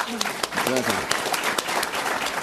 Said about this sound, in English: Okay, round of applause for